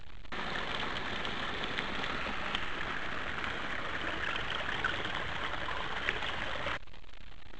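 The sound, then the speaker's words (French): A mountain torrent rushing, heard as a dense, continuous hiss and roar of churning water, steady in level throughout before dropping away sharply near the end. “en allant écouter de plus près, on entend l'eau qui s'exprime de mille façons. La façon à la fois violente et douce des torrents.”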